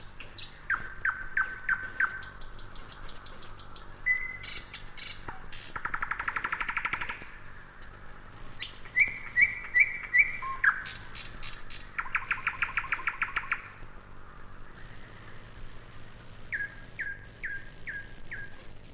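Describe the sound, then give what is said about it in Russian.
A nightingale sings alone in varied, fairly faint phrases: clear whistles, rapid clicking trills and buzzy rattling bursts, separated by short pauses. “потом погромче, потом разошелся, да как засвищет, защелкает, как пойдет сыпать дробным горохом, тут уж всем стало ясно, что это соловей.”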